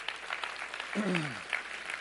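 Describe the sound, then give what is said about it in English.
Quiet audience applause for a man who cooked chicken for the gathering, a soft, even patter of clapping throughout, with a voice briefly audible partway through. “can we give Matt a round of applause for making chicken?”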